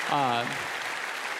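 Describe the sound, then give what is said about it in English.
Applause from a church audience welcoming another church joining the service by simulcast: a steady wash of clapping throughout, with a brief voice at the start. “And so can we welcome them and give them a hand?”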